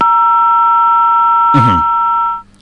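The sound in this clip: A steady two-tone beep from a mobile phone keypad sounds unbroken for about two and a half seconds, then cuts off. A brief burst of voice breaks in about two-thirds of the way through.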